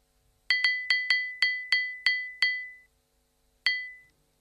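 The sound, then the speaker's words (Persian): A phone's bubble spirit level app chimes when the phone sits level: eight bright, glassy pings in a quick, even series, a pause, then one more ping, each ringing and decaying briefly. “خب این صدایی که میشنویم در واقع صدایی است که وقتی گوشی همتراز با زمین باشه شنیده میشه.”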